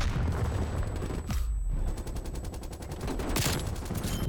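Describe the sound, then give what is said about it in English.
Rapid gunfire in a shooter video game: loud bursts of shots in a fast, repeating rhythm, with a brief gap near the middle and no talk. “I was shooting him right in the face, and it was not registering hits.”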